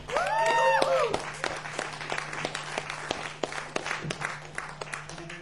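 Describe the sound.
An audience in Nuremberg applauds a local bass guitarist, a dense patter of clapping with sharper single claps. A brief voice sounds at the start, and the applause thins out gradually.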